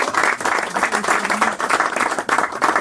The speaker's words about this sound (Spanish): Agradecimiento de nuevo y un aplauso, ¿no?